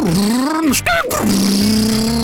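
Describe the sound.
A car engine revving after a repair at an auto parts store: a smooth, humming engine tone that dips, breaks off briefly in a sharp burst, then settles into an even, steady drone.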